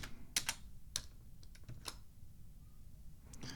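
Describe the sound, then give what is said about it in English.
Key clicks from a computer keyboard typed one-handed while writing a webmail message: quiet, irregular taps in small clusters with a long pause before a final pair, and no other sound. “I gotta type one-handed here”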